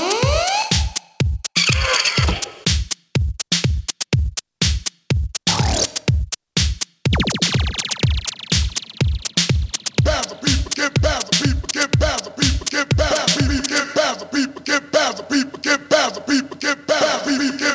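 Beat loops and one-shot sound effects triggered from keys of a keyboard music app: a steady run of repeated, sweeping electronic hits with a sustained swept tone partway through, and a denser, busier pattern of sounds near the end.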